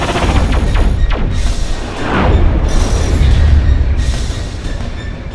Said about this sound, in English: There is another ship approaching off our starboard. They found us. We're too late. They're firing. Hold on!